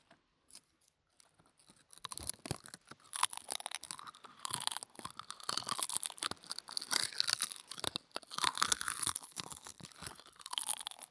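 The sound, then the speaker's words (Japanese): Loud, crisp crunching as a large, low-calorie snack sheet is bitten and chewed. A few faint crackles come first, then a long, dense, continuous stretch of brittle snapping and munching. “ちょっとね、一枚結構大きいから全部食べるのは大変なんですけど。”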